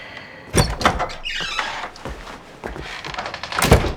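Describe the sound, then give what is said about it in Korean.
Kitchen door opening: a knock, then a scraping slide and a few light clatters, ending with a louder sharp thud. “주방문을 열고 나간다”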